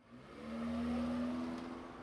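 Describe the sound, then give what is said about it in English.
Cars and vans driving along a bustling city street in Pittsburgh's Strip District, a vehicle's engine rumble and hum swelling and holding steady before easing slightly, with no voices. “I'm here on a bustling street in the Strip District. Uber self-driving cars make their rounds, and vans ferry bread and vegetables to trendy restaurants.”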